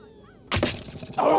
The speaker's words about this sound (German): Und da, Paris schleudert die Lanze!